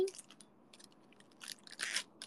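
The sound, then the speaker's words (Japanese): Crinkling and tearing of a Hololive Man Chocolate wafer wrapper being opened: soft, scattered crackles that build into a few louder, crunchy bursts near the end. “ホロライブマンチョコ、うまいって言ったくせにね。開けまーす。”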